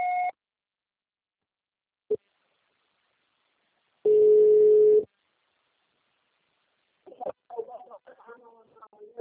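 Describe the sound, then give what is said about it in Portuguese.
A voicemail recording beep sounds as a steady, pure tone lasting about a second. A short higher tone and a faint click come before it, and a voice starts after a short silence. “Grave seu recado. Você só será tarifado após o sinal. Grave seu recado.”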